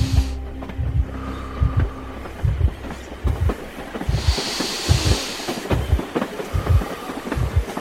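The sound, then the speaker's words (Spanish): A cattle train rolls along the rails, its wheels knocking out a steady clickety-clack of low thumps that repeat evenly throughout over a continuous rumbling hiss. “Lale comparte un vagón de tren de ganado con casi un centenar de judíos, el tren se detiene.”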